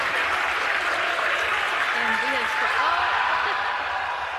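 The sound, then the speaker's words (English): SpaceX employees cheering and applauding a Starship landing, a steady, dense wash of clapping and crowd noise with voices mixed in throughout. “Still, SpaceX employees cheered the mission's overall successes.”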